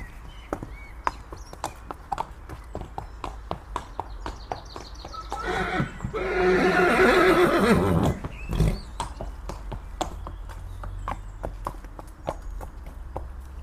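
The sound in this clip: A horse led from its stable neighs loudly in a long, rough whinny midway through, while its hooves clip-clop in a steady, even rhythm before and after.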